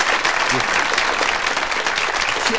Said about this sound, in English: Has a long clap.